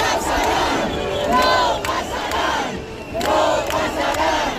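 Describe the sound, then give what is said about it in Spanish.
A large crowd chants "no pasarán" at an eviction protest, a loud, continuous, rhythmic mass of shouting voices with repeated swells in the chant. “Este no pasarán que proclamaban cuando se ha colado una persona con una bandera de España, con un lema y bueno, la han intentado echar, la policía se lo ha llevado”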